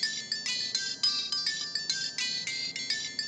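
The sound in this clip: A phone ringtone plays a fast, repeating pattern of high electronic beeps, many short pulses in an even rhythm. It rings on unanswered, moderately loud and alone.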